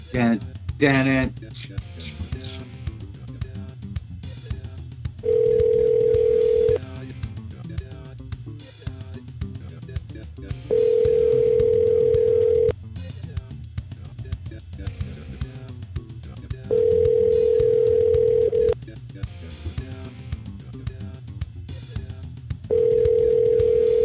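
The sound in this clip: Telephone dial tone: a steady, mid-pitched tone that comes in four long stretches of about two seconds each, the last one cut off. People talk and other sound continues between and under the tones.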